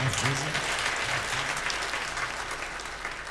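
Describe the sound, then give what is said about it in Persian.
An audience claps on request, a dense, steady patter of many hands at an even, fairly loud level, with a voice faintly heard underneath at the start. “دست رو بیار بالا، منم برم بالاتر یه ذره، یه کف مرتب بزنید.”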